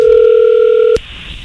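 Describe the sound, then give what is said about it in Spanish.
A steady telephone dial tone holds at an even pitch for about a second. It cuts off with a sharp click, and a quiet line hiss follows. “no haga ruido, ahí se está marcando.”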